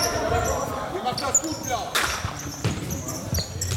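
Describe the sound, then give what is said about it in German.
Smaller, bounce-reduced futsal ball dropped onto a sports hall floor, giving a few short, dull thuds that die at once with little rebound, heard under people talking. “Man spürt es auch direkt, wenn man den Futsalball in der Hand hat, also wenn man den einfach fallen lässt, da ist ein anderer Klang und er ist sofort tot.”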